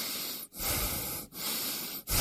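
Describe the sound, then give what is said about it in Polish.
A person breathes in and out on command during a smog-awareness announcement, each breath a long, loud, airy rush of air, separated by three brief pauses. “Proszę oddychać.”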